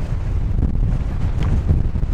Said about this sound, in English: the all-prevailing wind will do its level best to knock you off your feet